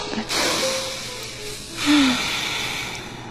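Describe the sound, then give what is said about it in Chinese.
Slow, deep breathing: two long, airy breaths drawn in and let out, fairly loud and heard alone with no talk. “最后节目最后还是让我们深呼吸啊。”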